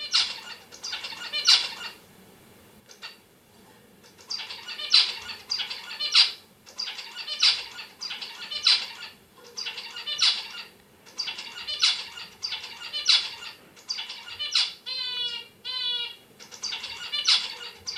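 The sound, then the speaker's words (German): Two zebra finches in a cage give many short, sharp, high calls in a fairly steady repeating rhythm, with a quicker run of chattering notes near the end. “das sind zwei Zebrafinken gewesen, die zueinander in einem Käfig geflogen oder gehüpft sind.”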